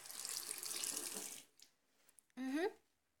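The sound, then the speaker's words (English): Water runs from a tap into a sink as a steady, bright hiss for about a second and a half, then cuts off abruptly, leaving near silence. “I just need to use this tap here by the sink.”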